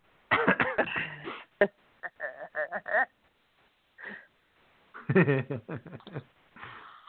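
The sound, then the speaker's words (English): A man has a coughing fit: many harsh, fairly faint coughs come in irregular clusters, separated by short quiet gaps. “And now he's got a little coughing fit of his own.”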